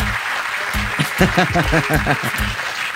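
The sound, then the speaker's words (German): Applause and cheering from an audience greeting a contest winner during a dancehall radio show, a steady dense wash of clapping that runs for the whole clip with excited voices calling out over it. “wo ist der Applaus hier?”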